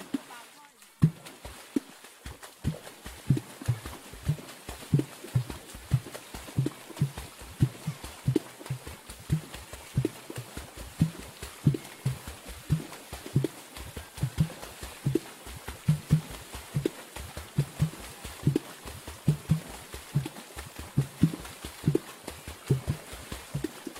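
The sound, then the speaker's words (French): Aquatic percussion played by striking water, a steady rhythmic run of many low, hollow thumps and splashes that keeps a repeating pattern throughout. “on va écouter tout de suite un extrait de percussions aquatiques.”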